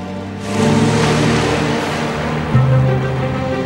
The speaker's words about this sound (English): a motor car driving towards him that stands unmoving as it swerves past him, followed by another which splashes water from a puddle onto him as it speeds by